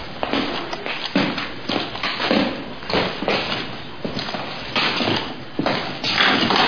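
Footsteps of someone walking around in new shoes, a steady series of soft thuds and light taps at a relaxed, slightly uneven pace, with no talking.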